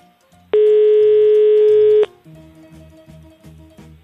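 A telephone dial tone sounds while a call is being placed: a loud, steady single tone lasting about a second and a half, followed by a quieter rhythmic background.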